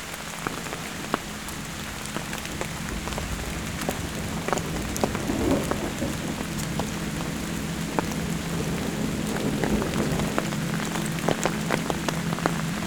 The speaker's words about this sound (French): et le tonnerre qui s'éloigne